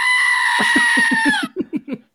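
Goat bleating: a loud, drawn-out harmonic cry is followed by a rapid series of short, pulsing bleats.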